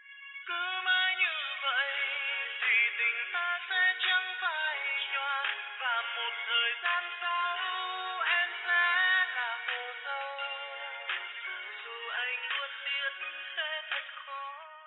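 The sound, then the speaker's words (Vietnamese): Phone ringback music plays while a call goes unanswered: a tinny, narrow-band melody that runs on without a break, with no voices over it. “Bản nhạc chờ quen thuộc vang lên nhưng không thấy ai bắt máy. Tôi sốt ruột gọi thêm vài lần nữa.”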